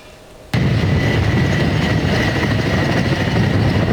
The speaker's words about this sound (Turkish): Helikopterlerin biri gitti, biri geldi.